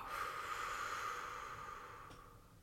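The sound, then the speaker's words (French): Soft breathing through the nose, drawing air in and letting it out, makes one long, faint, airy rush that slowly tapers off, followed by a brief soft puff near the end. “J'inspire par le nez sur deux temps. Bloc. Et expire.”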